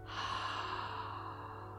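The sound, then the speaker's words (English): A slow breath during a guided relaxation exercise: one long, soft, steady airy breath that fades gently toward the end, heard alone without talk. “Inhale, exhale”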